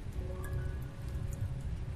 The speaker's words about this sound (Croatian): Još kad bi sam ta jebena kiša prestala...